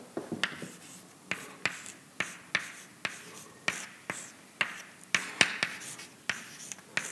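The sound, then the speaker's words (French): Writing equations on a board: many sharp taps and short scratchy strokes in an irregular rhythm, fairly faint and heard without talking. “Alors, la densité d'énergie libre, elle a deux termes. Je les écris dans l'ordre.”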